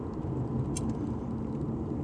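Steady low rumble of a car driving on the road, heard while the driver records. The engine and road noise hold an even, continuous drone with faint higher hiss, and no talking or distinct passing sounds.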